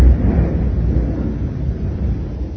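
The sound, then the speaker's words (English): A thunderstorm in Johannesburg gives a deep, continuous rumbling roar, heavy in the low end and steady throughout, with no distinct cracks and no voices. “if you could have recordings of the thunderstorms in Johannesburg, how happy it would make you”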